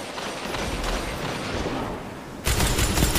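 Machine-gun fire in a competitive shooter video game during a control match: a sustained rattle of shots that breaks into a sharper, louder burst for the final stretch.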